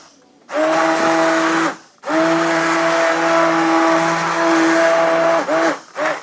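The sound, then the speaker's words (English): A stick blender whirs as it purées a pot of cooked soup, a loud, high motor whine in two main bursts separated by a short pause, then a couple of brief final pulses. “These stick blenders, oops. Little splash.”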